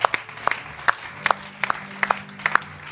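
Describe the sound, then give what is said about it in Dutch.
Scattered applause at a worship gathering: a few sharp, separate hand claps in an uneven rhythm, fairly loud, with no full crowd roar. “Come on, why don't we give these guys a hand right now?”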